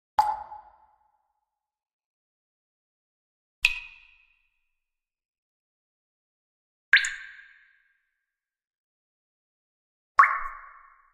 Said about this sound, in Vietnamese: Trong hang đá, nước rơi tí tách.